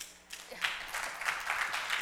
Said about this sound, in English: that applause has to go to God.